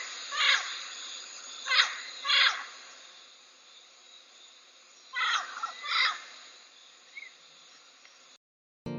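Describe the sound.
Talking birds call in a humid tropical rainforest: several loud, harsh bursts come in two clusters, each pair or trio close together, over a faint, steady background hum before the sound cuts off.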